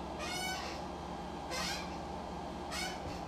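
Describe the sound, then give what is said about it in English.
Three high, squealing creaks from a rusty rolling computer chair, each a short tonal squeak spaced about a second apart, over a faint steady background hum. “That noise you're hearing is the computer. That's the chair desk, the chair for the computer or whatever. And it's a rolling chair. Obviously, it must be a little rusty because it's making all this noise.”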